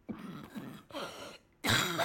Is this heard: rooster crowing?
no

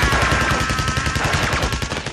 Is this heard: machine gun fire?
yes

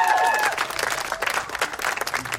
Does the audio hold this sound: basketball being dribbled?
no

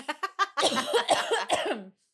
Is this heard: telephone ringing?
no

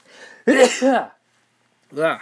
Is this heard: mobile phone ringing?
no

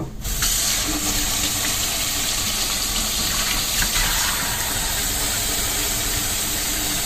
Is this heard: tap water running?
yes

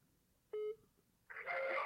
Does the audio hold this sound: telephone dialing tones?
yes

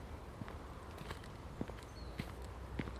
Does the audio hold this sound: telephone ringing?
no

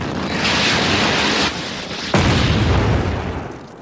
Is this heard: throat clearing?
no

